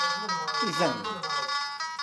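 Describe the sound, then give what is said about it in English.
A song-like intruder warning from a homemade motion-detector alarm set off outside a house window: a steady electronic melody of sustained tones with a voice speaking over it. “A simple wave of the hand outside the window triggers the motion detectors and sets off a song-like warning.”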